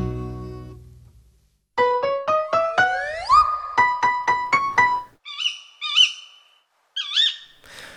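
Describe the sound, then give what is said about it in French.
A female tawny owl calls in a rapid series of many sharp, rising notes, followed by a few longer, wavering calls after short gaps. “Le cri que vous entendez, c'est celui de la chouette hulotte femelle. Oui, la chouette hulotte, mais la femelle.”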